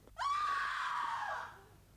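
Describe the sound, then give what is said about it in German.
A woman's shrill scream, one sustained high cry that holds steady, then fades and drops slightly at the end, heard alone. “Was für Geschrei ist das? Geschrei von Weibern, teurer Lord.”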